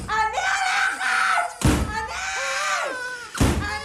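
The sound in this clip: A door slammed during a heated drama scene: two heavy, sharp thuds land a couple of seconds apart, with loud, strained shouting voices filling the gap between them.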